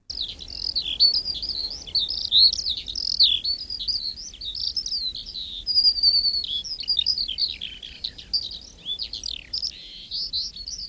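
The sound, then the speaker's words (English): A skylark sings a continuous, rapid, high-pitched warbling song full of trills and quick chirps. The outpouring runs without pause for the whole stretch over a faint low rumble. “That is the sound of the skylark, one of Dara McAnulty's superstars when it comes to birdsong.”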